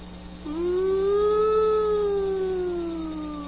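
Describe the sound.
A voice imitates a high-speed VCR rewinding near the end of the tape: a sustained humming tone that rises slightly, holds, then sags lower in pitch as it winds down, over a faint steady low hum.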